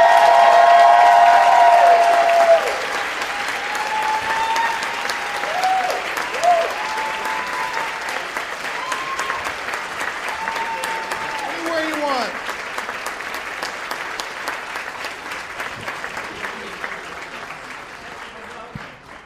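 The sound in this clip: Applause and cheering from a Baltimore comedy show audience welcoming comedians, loudest at the start, then steady clapping with whoops and shouted voices over it, gradually tapering off.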